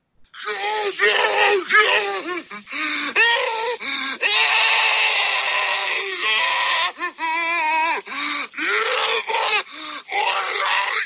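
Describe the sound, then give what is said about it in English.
Zombies in Ravenholm from the video game Half-Life moan and groan loudly, with many drawn-out, wavering, throaty cries that overlap almost continuously. “And what I mean by zombies is, like, this number right here.”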